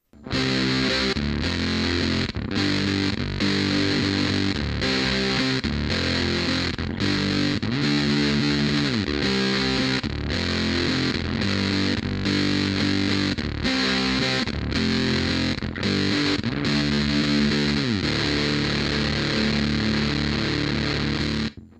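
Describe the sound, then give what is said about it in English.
Heavily distorted electric guitar through a distortion pedal, its bias control set just above the lowest point so the signal breaks up. Loud, dense chords ring out steadily, with brief gaps between phrases and no talk. “here's with that bias control set just above its lowest point.”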